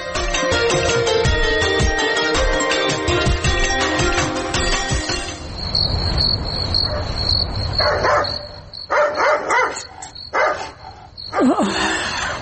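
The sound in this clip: Dog barking at night, several sharp barks in the second half over a steady, high-pitched chirr of crickets, after a dense, busier opening stretch.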